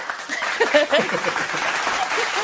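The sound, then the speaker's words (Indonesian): Applause from the audience at an evening talk session, a steady wash of clapping that runs the whole length, with some voices mixed in over it. “Izinkan saya beri satu lagi tepukan.”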